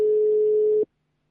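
A telephone ringing tone sounds as a call is being connected: one steady mid-pitched tone that lasts under a second, then cuts off abruptly into silence.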